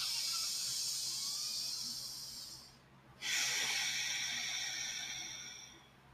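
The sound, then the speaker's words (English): Breath drawn in through the nose as a long airy hiss, a brief pause, then a long breath out through the nose, with no other sound. “take a moment, take a fucking breath in and out of the nose.”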